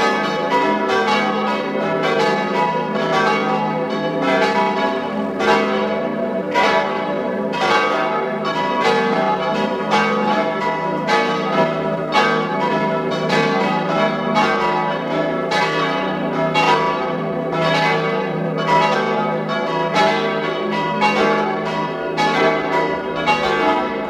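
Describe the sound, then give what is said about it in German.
Parish church bells in a Tyrolean village ring at noon. Many overlapping strikes form a loud, continuous peal with no pauses, and the tones hang on between the strokes. “Sie hören die Glocken der Pfarrkirche zum heiligen Wolfgang in Schattwald in Tirol.”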